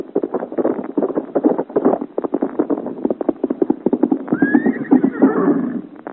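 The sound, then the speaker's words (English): Rapid hoofbeats of a horse ridden at full gallop along a road pound on throughout, loud and dense, and a high whinny rises near the end over the running clatter. “it's a giant on horseback, and riding as if the devil and all his hordes were after him. Look how he rides with the sparks rising from the road behind him.”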